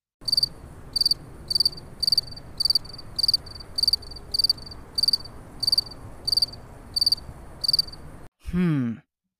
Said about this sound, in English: That's right! That sound is made by crickets chirping.